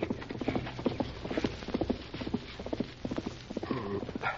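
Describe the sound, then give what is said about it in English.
Horse hoofbeats on a trail leading past a cove into town: a rider's horse clip-clops in a steady, brisk rhythm of many hollow beats, with no talk over them. “heard hoofbeats on the trail that led past the cove into town. Someone's riding along the trail to town, Tonto.”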